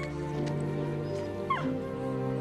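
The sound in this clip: Young puppies whimper and give small yips, faint thin squeaks rising briefly over a steady low hum.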